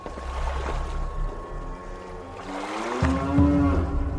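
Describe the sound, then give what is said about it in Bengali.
Cattle lowing in a farm scene: a drawn-out, deep moo swells near the end over a continuous rustling background, with no talk. “গরু ডাকছে, তাদের গলায় ঘন্টা বাজছে।”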